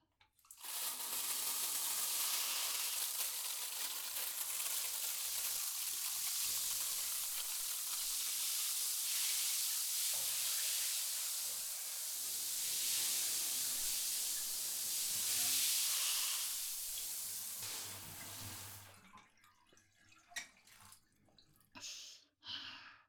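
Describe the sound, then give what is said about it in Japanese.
Shower water lightly rinses hair before shampooing as a steady, loud hissing spray. It runs for about nineteen seconds, then cuts off, leaving a few faint handling sounds. “よし、じゃあまずは軽くシャワーで流して”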